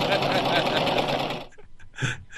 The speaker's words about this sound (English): See, she's already sewing right now. There you go.